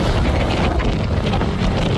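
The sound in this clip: Wind roars as a loud, dense rush that buffets steadily throughout with no pause.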